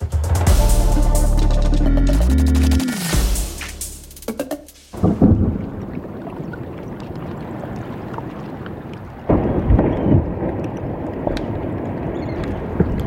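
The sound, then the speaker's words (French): A block of ice breaks off an iceberg: after a low droning tone, a deep thunder-like crack bursts into a long rumbling roar, then swells again in a second surge of heavy rumbling. “Voilà, et ça n'est pas un orage. Ce bruit impressionnant est celui d'un bloc de glace qui se détache d'un iceberg.”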